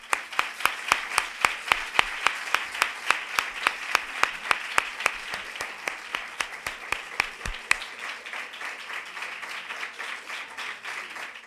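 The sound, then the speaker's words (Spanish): Audience applause at a flamenco education event for young performers: sharp, evenly spaced claps in a steady rhythm for about eight seconds, then a softer, denser wash of scattered clapping to the end. “démosle un aplauso, ¿vale?”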